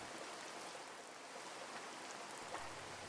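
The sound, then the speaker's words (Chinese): Heavy rain, heard as a faint, steady, even hiss of falling water that carries on without a break and with no voices. “什么时候下起那么大雨了？天都湿了。”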